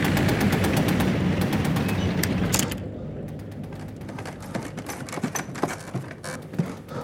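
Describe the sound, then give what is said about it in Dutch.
Machine-gun fire from a German armoured car at a crossroads. Dense, rapid rattling bursts over a rumbling noise bed thin out into scattered sharp cracks and clicks. “Over de weg langs de erf zien de broers een Duitse panzerauto passeren die naar een vlakbij gelegen kruispunt rijdt. En daarop iets begint te vuren.”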